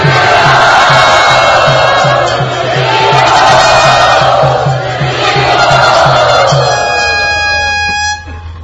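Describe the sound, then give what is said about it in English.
Audience cheering and shouting to welcome Devamrita Swami at a program in Pune: a loud, continuous crowd roar with whoops, a steady low rhythmic pulse underneath for most of it, and a sustained tone emerging near the end. “Let us all very, very enthusiastically welcome His Holiness Devamrita Swami Maharaj to our Pune.”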